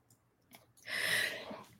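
A single human sneeze: a faint breathy intake, then a loud, harsh burst of air lasting under a second, with no talking.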